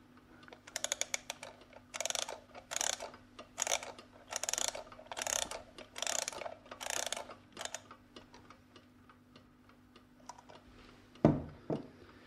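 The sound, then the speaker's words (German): A wind-up alarm clock being set and wound gives a rapid run of small clicks, then a series of about eight louder rhythmic ratcheting bursts, with a single sharp click near the end against quiet background hum. “Ich stelle den Wecker jetzt auf 23 Uhr.”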